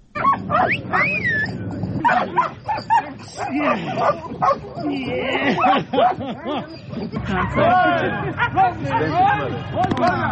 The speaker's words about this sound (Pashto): د سپویو د روزنې له مرکزه په اوازونو پیل شوی